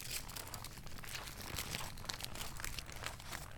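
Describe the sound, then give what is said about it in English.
A paper letter is opened with steady crinkling, rustling and a light tearing sound. The rustle is continuous and fairly quiet, with no voices. “He opened the letter and began reading it as he walked back to his house.”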